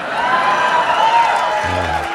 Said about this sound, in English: Don't applaud that.